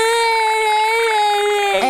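A young child crying: one long, loud, wailing note that holds a steady, fairly high pitch for nearly two seconds before breaking off abruptly.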